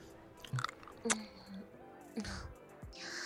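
Chewing and biting of food while eating at a newly opened restaurant. A few soft, short crunchy bites and squishy chews are spaced out, fairly faint, between quiet pauses.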